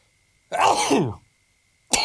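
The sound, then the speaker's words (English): A single sneeze from a person: a sudden, harsh, voiced burst lasting under a second whose tone drops toward the end. After a short silence, another sharp sound begins. “I thought you weren't able to sneeze live on air, but there you go.”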